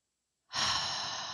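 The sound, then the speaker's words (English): A single deep breath, airy and soft, rises quickly and then trails off gently during a guided Reiki meditation, with no talking. “Close your eyes, take a couple of deep breaths in and out.”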